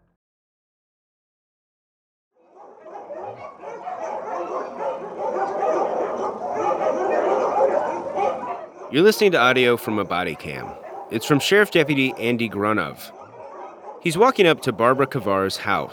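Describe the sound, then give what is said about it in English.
White Samoyed dogs bark and yip in outdoor cages at a puppy mill just before dawn. A man speaks first, then many sharp, high barks and whimpering yips follow in bursts, with talk continuing between them. “You can hear the white Samoyeds barking.”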